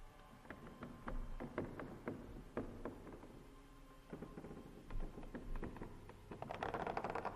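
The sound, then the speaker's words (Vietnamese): Scratching and rustling come from behind a house near a well: irregular dry scrapes and clicking rustles in uneven bursts at a moderate level, growing busier and louder toward the end, with no voices present. “Đúng lúc tiếng cào sột xà sột soạt lại vang lên ở sau nhà, nơi có cái giếng.”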